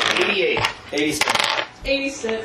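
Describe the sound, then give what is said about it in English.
Percentile dice rolled for a tabletop game, clattering and tumbling across a hard surface in a few short, rattling bursts of sharp clicks. “But I need everyone to roll me percentile dice straight up.”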